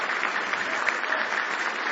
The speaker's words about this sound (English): Give Him one more hand clap of praise if you love Him.